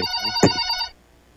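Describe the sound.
A telephone rings with an incoming call to a radio station: one electronic ring of steady, bright stacked tones with a sharp click midway, cutting off before a short quiet tail.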